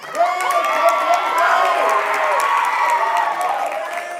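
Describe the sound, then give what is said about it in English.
An audience applauds and cheers after being asked to give someone a hand. The crowd roar is loud and continuous, with steady clapping and scattered whoops and shouts. “You guys give her a hand.”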